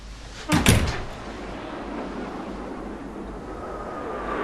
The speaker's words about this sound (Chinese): 锁了。 这干什么呢？怎么还锁着门呢？